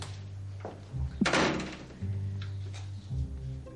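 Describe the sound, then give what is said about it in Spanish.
A door being closed inside a house gives a single dull thud near the middle, heard over a steady low electrical hum. “Entra y cierra la puerta”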